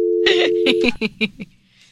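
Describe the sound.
A telephone call being dialed: a steady low tone holds for about half a second, then three short beeps follow in quick succession, moderately loud with no talk.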